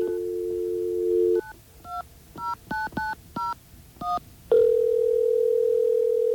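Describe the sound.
Touch-tone telephone dialing: a steady dial tone cuts off, then seven short keypad beeps come in a quick, slightly uneven rhythm, followed by a single sustained steady tone.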